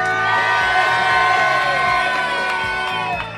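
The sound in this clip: Live audience at a radio show in San Martín de la Vega cheering and shouting, a loud roar of many voices with whoops that holds steady and then tapers slightly at the end.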